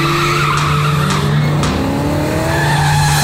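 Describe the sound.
A black foreign car, a Toyota, speeds along with a loud, constant engine roar and tire squeal, its tones climbing as it goes.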